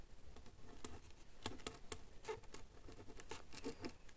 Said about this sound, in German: Ich schreibe mir das alles auf, okay.